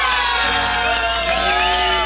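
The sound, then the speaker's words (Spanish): Crowd cheering and whooping in an ovation at a birthday celebration on a city avenue, a dense, loud, continuous roar of many shouting voices sustained from start to finish. “¡Muchas felicidades! ¡Una ovación, por favor!”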